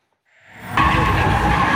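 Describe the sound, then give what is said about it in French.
Tires squeal as a car driven at full speed spins through circular drifts in a hypermarket parking lot at night. Engine and road noise swell quickly, then a loud, sustained, shrill screech takes over and holds. “Un véhicule lancé à toute allure enchaîne les dérapages circulaires sous les feux d'artifice d'un groupe de participants.”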